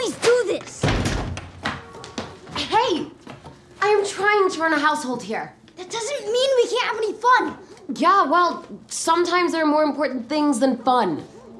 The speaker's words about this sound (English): Slam the door.